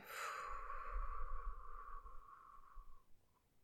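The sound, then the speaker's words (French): A long exhale through the mouth during a guided meditation breathing exercise: a soft, breathy rush of air that fades gradually over about three seconds, with no talking. “Tout d'abord, laissez tout l'air qui est encore en vous sortir. Longue expire par la bouche,”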